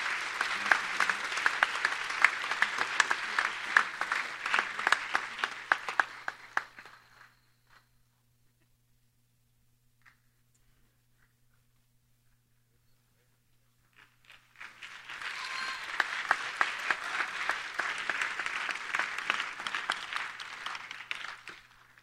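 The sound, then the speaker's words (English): A church audience applauds, congratulating a graduate: two long bursts of steady, fairly soft clapping separated by several seconds of near silence, the first tapering off before the second swells in. “Would you put your hands together and congratulate her this evening?”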